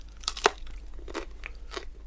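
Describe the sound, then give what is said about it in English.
Crisp crunching as someone bites into thin pan-fried flatbread brushed with butter on top and fried without oil, with a few sharp crunches followed by softer crackly chewing, fairly faint. “I brushed a little bit of butter on the top, yeah. I'm just going to give it a little crunch.”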